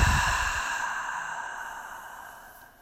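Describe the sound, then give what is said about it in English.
A long, breathy exhale through the nose and mouth after a deep breath, starting strong and fading steadily into quiet over about three seconds. “let's really seal that practice with a deep breath in through the nose. And a big long exhale.”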